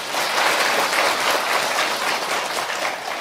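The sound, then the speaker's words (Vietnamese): Steady audience applause at a Buddhist dharma talk in Korea, a dense, even hiss of many hands clapping at fairly constant loudness from start to finish, with no voices over it. “Cho tràng pháo tay.”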